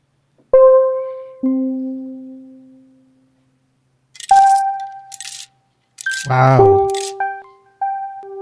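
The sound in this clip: Coin-drop chime marking a donation: two bright ringing tones that slowly fade, then more short tonal blips and a metallic clatter.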